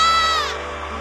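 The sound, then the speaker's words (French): People shouting cries of joy: a high, loud cry that trails down in pitch and fades into a blur of crowd noise. “est-ce que tu peux pousser les cris de joie?”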